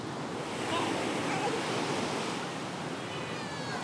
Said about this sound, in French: J'ai peur, ça me fait peur la mer. Ça me fait peur la mer.